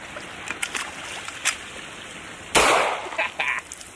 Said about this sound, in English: I'm gonna take a measured amount of pond scum and put it in the gun and see if it fires.